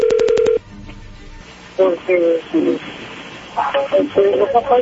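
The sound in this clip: A phone number is dialed on a keypad: a quick run of short, evenly spaced beeping tones lasting about half a second, then a person talking.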